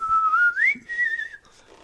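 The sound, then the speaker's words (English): A dad whistles a silly, annoying tune to tease his kids. The single clear whistled line wavers, leaps higher midway, then holds and drifts down before stopping. “How to annoy the kids with a stupid dad's whistle.”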